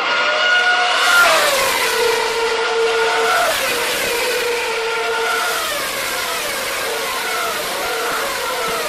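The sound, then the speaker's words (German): Old Formula 1 racing cars accelerating past, their loud, high-pitched engine whine sweeping downward in pitch as each car passes, then holding a continuous, dense roar. “Ein aggressives Rudel der alten Formel 1. Wie klingt das mit dem Doppler-Effekt? Haben Sie es als Einspielung? Ja, wir hören mal kurz rein.”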